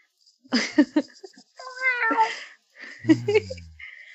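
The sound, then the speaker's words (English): A person imitates a cat's meow. A few short vocal sounds come first, then two drawn-out, wavering meow-like calls, each clear and moderately loud against silence. “That's my cat noise.”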